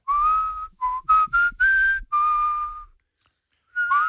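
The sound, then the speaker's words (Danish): A person whistles a short tune to test others' whistling, in several bright, clear phrases of varying length with brief gaps, then a longer pause before one more phrase begins at the end. “Og nu fløjter jeg bare det, jeg godt kunne tænke mig at høre jer fløjte.”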